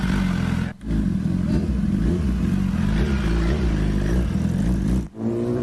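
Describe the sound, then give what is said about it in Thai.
Big-bike motorcycle riding off to deliver barbecue to customers' homes. Its engine gives a loud, steady, low throbbing drone, broken twice by brief dips where the revs drop away before picking up again. “ไปเลยมีบริการขี่บิ๊กไบค์เท่ๆแบบนี้ออกไปส่งบาร์บีคิวให้ลูกค้าถึงบ้านนะครับ”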